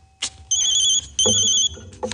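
Two bursts of a high, shrill electronic phone ring, each about half a second long and separated by a short gap, loud with no talk over them.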